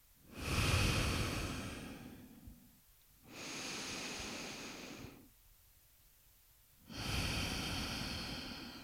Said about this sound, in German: Kurz halten. Und ausatmen, altes abgeben. Mach das noch ein paar Mal.